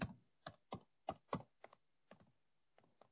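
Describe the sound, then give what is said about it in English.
Typing a comment on a computer keyboard: a short, uneven series of crisp, clear keystrokes with brief quiet gaps between them, fairly soft overall. “So I'm going to type a comment here to everybody. I hope I can spell it correctly.”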